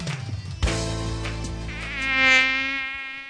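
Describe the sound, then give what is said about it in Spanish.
A mosquito buzzes, the dengue-carrying kind, in a sustained, nasal whine rich in harmonics that wavers in pitch and swells louder near the end before easing off, heard alone without voices. “El mosquito que transmite el dengue vive en el agua clara, que parece limpia”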